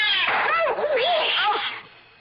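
An angry cat attacking, giving one long, loud yowling caterwaul with a wavering pitch, heard alone and fading out at the end.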